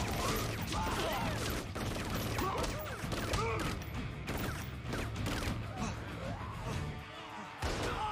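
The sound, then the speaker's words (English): Rapid gunfire from a mega gun in a zombie video game: a dense, unbroken barrage of overlapping shots and crashes that stays loud throughout, with excited voices talking over it. “Got the mega gun. Oh, he's gonna shoot them all out.”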